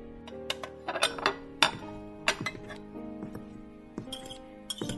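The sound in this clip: Pots, pans and utensils clatter during cooking: many sharp, irregular clinks and knocks, some ringing briefly, spread over quiet gaps.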